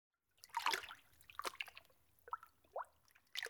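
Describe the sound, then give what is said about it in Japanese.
Soft splashes and drips of hot water in a bathtub: a few gentle, irregular sloshes and trickles, faint and with no talk over them. “さあ、湯船に浸かってください。”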